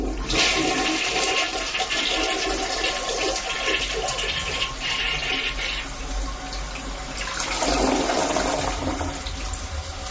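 A toilet flush used as a sound effect: loud rushing, churning water runs steadily for about ten seconds, swelling again near the end.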